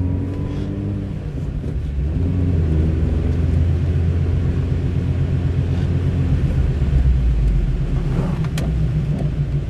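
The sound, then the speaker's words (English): Steady low road rumble and engine drone from inside a moving car, a constant, fairly loud hum with no talk over it. “As you're doing a podcast in a moving vehicle.”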